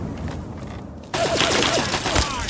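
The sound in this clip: Gunfire in a video game aimed at the head of a brute enemy: a quieter stretch gives way to a sudden loud burst of rapid, overlapping shots that keeps going to the end, with a voice briefly audible.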